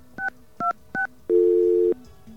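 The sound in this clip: Telephone touch-tone dialing while calling a voicemail system: three short, evenly spaced dual-pitch beeps, then one longer steady tone, all loud and clean with no talk.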